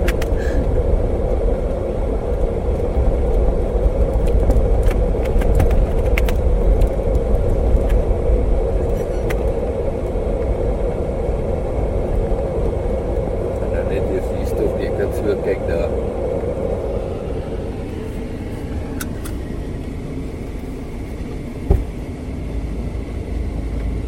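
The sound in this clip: Steady road rumble and engine drone heard from inside a moving Toyota, a continuous low, loud hum with little change, broken by a single sharp knock near the end.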